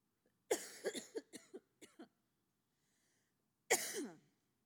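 A person choking on their throat while not sick coughs in a quick run of several short, sharp hacks. After a brief pause comes one more harsher cough. The bursts are faint and dry.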